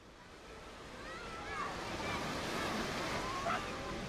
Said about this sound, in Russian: Литва. Июнь 1941 года. Пляж. Море омывает песок.